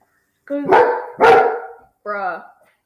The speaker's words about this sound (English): dog interruption.